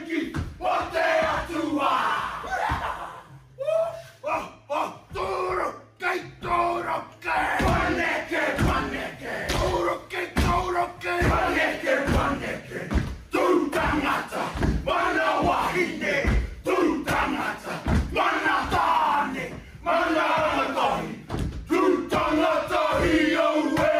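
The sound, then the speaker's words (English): A group performs a Maori haka war dance: loud, rhythmic shouted chants and battle cries from many voices, with sharp accented bursts repeating throughout and brief drops between phrases. “that's that Maori dance that you sometimes see before a rugby match. They performed the haka, which is a very spiritual act. They performed it for Avi. Take a look at this.”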